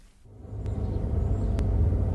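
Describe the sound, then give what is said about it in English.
Low engine rumble inside a moving car, building over the first half second and then holding at a steady, deep level with no talking. “Hey, this is some car, isn't it, Mrs. Matthews? Can we go on the motorway so I can put my foot down?”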